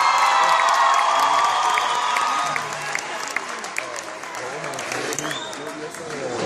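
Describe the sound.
Loud, dense applause from an audience at a music performance, mixed with scattered cheering and whoops. The clapping is strongest at first, then settles to a slightly softer, steady ovation.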